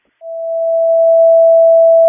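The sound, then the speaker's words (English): A fire dispatch radio alert tone sounds during a test: one loud, steady, pure tone that starts abruptly after a brief silence and holds unchanged for about two seconds. “Just want to make aware, we're going to do one more test of the tones.”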